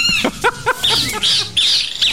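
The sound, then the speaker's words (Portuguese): Birds singing, a quick run of short, bright chirps followed by higher sweeping whistled notes, loud and clear with no talk. “Aqui a passarinhada canta bonito, viu?”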